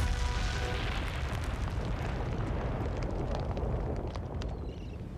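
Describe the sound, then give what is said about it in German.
A house exploding with a big bang, heard as a loud, broad roaring rumble of a blast that sustains across the whole clip and fades only slightly toward the end. “Und dann, mit einem besonders großen Knall, flog sein Elternhaus in die Luft.”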